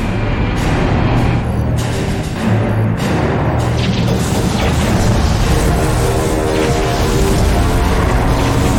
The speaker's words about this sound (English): The Citadel's closing. They're sealing the station. So the arms of the Citadel flower. Don't let the enemy ships inside the arms. Yeah. The arms are going together.